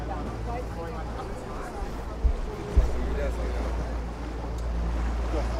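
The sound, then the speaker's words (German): Steady low engine drone of a 15 hp motorboat cruising through Rostock's city harbour, mixed with wind buffeting and water noise. Two brief thumps land near the middle, over an otherwise even rumble. “Mit 15 PS geht es erstmal durch den Rostocker Stadthafen.”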